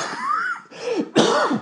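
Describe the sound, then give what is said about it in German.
A few strained, partly voiced coughs, held back, come in short harsh bursts with a brief pause between them, fairly loud and with no talk over them. “Ich wollte den Husten noch zurückhalten.”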